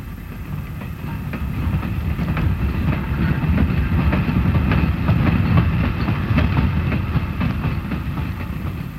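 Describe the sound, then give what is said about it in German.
A long freight train with coal wagons arriving at a marshalling yard in 1947: a heavy, steady rumble with a rhythmic clickety-clack of wheels over rail joints that grows slightly louder over nine seconds. “Jetzt ist der Zug gekommen. Der Rangierbahnhof ist erleuchtet, man kann ziemlich deutlich sehen.”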